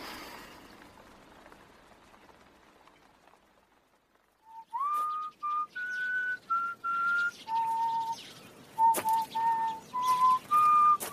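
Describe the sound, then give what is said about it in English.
A person whistles a call: a run of many short, clear whistled notes at shifting steady pitches, entering after several seconds of faint background hiss. “I heard your whistle, so I came immediately.”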